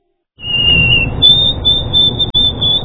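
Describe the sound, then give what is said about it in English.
A white-throated sparrow sings its song: a clear, high, steady whistled note that steps slightly higher and is held, pure and loud over a low rumbling background. “Wondering what's singing in your backyard? That's the song of the white-throated sparrow.”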